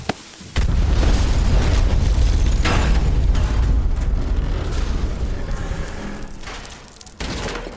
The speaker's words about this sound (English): Pipe bomb! Move it!